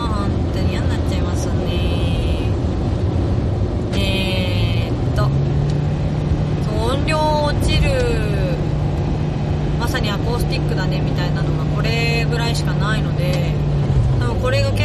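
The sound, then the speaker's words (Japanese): Low, steady engine drone inside a car as it overtakes a swaying truck on the road, a constant hum running beneath a person talking throughout. “前のトラックめっちゃフラフラしてんですけど、どうせスマホいじってるか眠いんだべ。どっちや、怖いな。ちょっと待ってね、追い抜くから待ってくださいませよ。”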